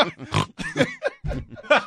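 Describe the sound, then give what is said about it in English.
A man snorting with excitement: a few short, rough nasal snorts, fairly loud, in quick succession with brief gaps between them. “Did you just snort, by the way? I did.”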